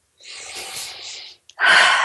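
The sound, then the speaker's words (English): A deep breath drawn during a chest-massage exercise. A long, airy breath sound of steady strength is followed after a short pause by a louder, rougher burst of breath, with no talk. “Big, deep breath.”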